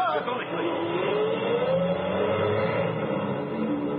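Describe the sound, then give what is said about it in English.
A truck engine pulls away as the truck drives off, a loud, steady motor drone with a tonal whine that climbs slightly and then holds for the whole stretch. “Get your truck out of here”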